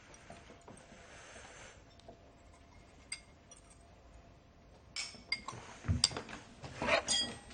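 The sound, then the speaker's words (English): A spoon clinks against a bowl while cheese is spooned onto pasta, with a few soft taps at first and then a busier run of louder scraping clinks toward the end. “He takes the bowl and begins spooning it onto his pasta.”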